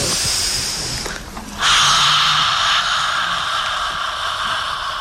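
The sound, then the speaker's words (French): A men's choir breathing in together, heard as one loud, airy inhalation that swells suddenly and holds for about a second over a steady background hiss. “Allez, les garçons en place, s'il vous plaît. Ok, on inspire.”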